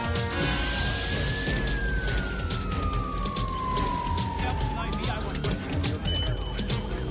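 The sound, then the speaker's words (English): An ambulance siren outside an arena gives a steady wail that slowly glides downward in pitch, heard over dense, noisy background rumble. “Outside the arena, RC watches as Anton is placed in an ambulance.”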